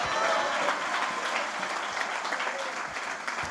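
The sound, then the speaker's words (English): Congregation clapping hands at a church fasting and prayer night service: a dense, sustained round of applause, loudest at the start and easing slightly toward the end, with no clear speech. “If you're thankful for it, give the Lord a great hand clap.”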